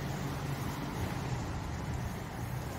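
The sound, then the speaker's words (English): Steady road and engine rumble from inside a car pulling out of the White House lot. The noise stays even and unbroken throughout, with no voices. “Okay, so I'm leaving the White House lot, and we're gonna drive down.”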